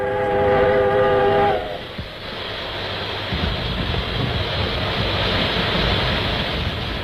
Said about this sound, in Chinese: 在机车放出的蒸汽掩护下，同志们跳下机车就钻到弹药列车下面去